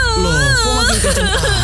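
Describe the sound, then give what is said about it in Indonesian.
A person cries loudly, wailing in long wavering sobs whose pitch bends up and down, then breaking into shorter choked bursts toward the end. The crying fills the whole stretch without pause. “Loh, kok makin kenceng aja sih nangisnya?”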